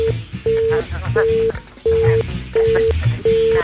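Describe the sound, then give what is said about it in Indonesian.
A busy tone follows a telephone call being cut off: steady beeps in an even on-off rhythm, about five full pulses plus a partial one, with voices talking underneath. “Oke, sayang sekali terputus ya. Anda boleh mencoba kembali.”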